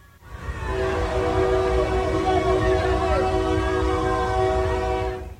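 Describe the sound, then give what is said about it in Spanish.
A horn blast from the new Interoceanic train in Mexico as it runs its first stretch of track: a loud, sustained, multi-tone horn over the rumble of the train, lasting several seconds before fading. “recorrer el primer tramo del que será el tren interoceánico”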